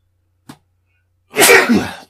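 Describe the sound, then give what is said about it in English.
A single human sneeze: a brief faint intake, then a loud, breathy burst in two surges lasting under a second, with no talk around it. “I'm going to sneeze. Hold on.”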